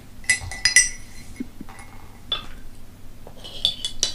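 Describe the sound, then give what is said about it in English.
A spoon clinks against a cup while stirring tea: a quick cluster of bright, sharp clinks at the start, then a few more near the end, with quiet scraping in between and no talking. “Give it a bit of a stir.”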